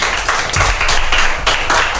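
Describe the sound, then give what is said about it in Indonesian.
Audience clapping for a speaker who has just finished a presentation: loud, dense clapping that pulses in uneven surges and continues for the whole two seconds. “Oke, terima kasih Jeverlyn. Tepuk tangannya untuk Jeverlyn.”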